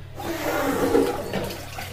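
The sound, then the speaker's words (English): A household toilet flushing with a steady rushing roar of water that holds at an even loudness for about two seconds. “And I know some of you people do this on your podcast, so I'm going to do the same. This is the sound of our toilet flushing.”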